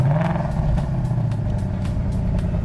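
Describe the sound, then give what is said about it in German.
Deep, steady rumble of a Ford Mustang GT muscle car with a V8 engine, a continuous low drone with no distinct revs or pauses. “Original Ford Mustang GT Muscle Car aus den USA mit V8-Maschine.”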